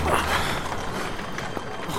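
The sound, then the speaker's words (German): Runaway horses pulling a carriage race past, with clattering hooves and rattling wheels merging into a dense, loud, continuous rush of noise. “Das war knapp. Man könnte meinen, dass diese Kutsche es darauf abgesehen hatte, uns zu überfahren. Unsinn. Die Pferde werden dem Kutscher durchgegangen sein.”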